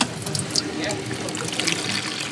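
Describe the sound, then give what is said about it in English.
Warm water runs into a plastic basin in a home health aide training class, a continuous splashing trickle with bubbly, gurgling detail that stays fairly even throughout. “filling up a plastic basin of warm water”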